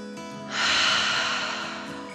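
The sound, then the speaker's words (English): A deep 'dragon' breath drawn in and let out, a single long airy rush that begins after a short quiet moment and fades slowly, with no talk. “Allie took a deep dragon breath in and out.”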